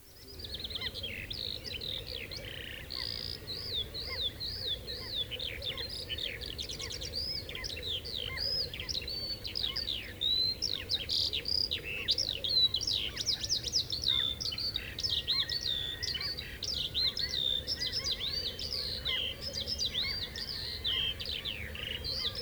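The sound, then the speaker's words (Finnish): A Eurasian skylark sings a long, continuous, rapid warble of high chirps and trills that flows without pause, fairly faint over a low steady background. “Kiuru.”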